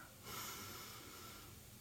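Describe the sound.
A person breathing in slowly during a quiet pause before a Lent devotional prayer: a soft, steady airy hiss that begins after a moment and continues to the end, faint and alone.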